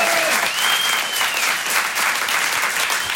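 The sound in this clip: Audience applause at a stand-up comedy show: dense, steady clapping fills the whole stretch at a loud, even level, with a thin whistle rising and falling near the start.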